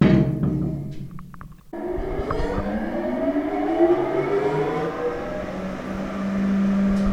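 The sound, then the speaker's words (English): Air filtration machinery in an underground nuclear-era shelter is switched on, starting as a steady droning hum that briefly dips, then rises in pitch as the machinery spins up into a sustained whining roar. “Our guide here has just turned on the air filters to give you an idea of the type of noise that people who stayed down here would have to live with”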